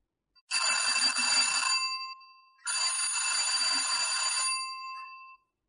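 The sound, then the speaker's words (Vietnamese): A doorbell rings repeatedly in two long, continuous bursts separated by a short gap. The bright, metallic ringing is loud and insistent, with nothing else heard around it. “Một loạt tiếng chuông cửa đáng ghét mãi không chịu tắt truyền vào trong tay.”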